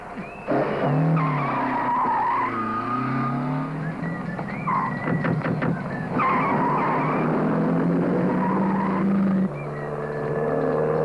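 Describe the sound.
Tyres skid and squeal loudly as a car reverses at speed. A long, wavering screech mixes with engine roar for most of the stretch, then drops to a steadier engine rumble near the end.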